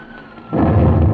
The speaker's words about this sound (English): I think we'll open up on them any second now. Open up? Yes, our anti-aircraft. Oh, this is thrilling.